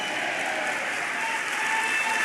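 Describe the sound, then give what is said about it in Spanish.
A church audience claps together in an even, sustained wash of applause that holds steady and grows slightly louder toward the end. “Vamos, dele palmas, dele palmas al Señor.”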